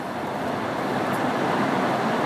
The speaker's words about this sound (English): there's like people driving out of here. It's not much room to kind of get in and out of here. So you gotta let these cars go by.